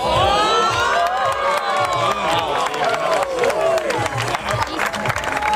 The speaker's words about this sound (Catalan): com que no podem descriure a vegades en paraules el que vivim, escolteu la reacció de la gent.